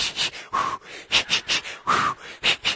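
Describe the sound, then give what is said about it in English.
A voice imitates Lamaze hyperventilation breathing: a rapid, rhythmic run of many short, breathy puffs, with a couple of longer, voiced, tonal exhales mixed in. “He and I both begin to look at each other and we start to hyperventilate. And then it's like something just kicks in. Like I must remember from when my mom took Lamaze class”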